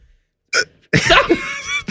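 Uncontrollable hiccups come from a man who has just eaten super spicy peppers: a few abrupt, throaty bursts in quick succession, loud and sharp, with one stretching into a longer strained vocal gasp.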